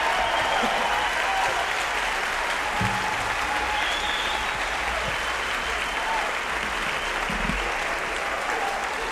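Audience applause welcoming singer Lester Flatt onto the stage, a dense, steady clapping from a crowd that holds at an even level for about nine seconds with no break.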